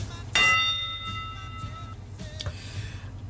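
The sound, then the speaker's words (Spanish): Toll of a bell: one loud stroke that rings on with bright, sustained tones slowly fading, followed by faint clicks and a softer tonal touch. “un tañido de campana y comienzo con el prólogo.”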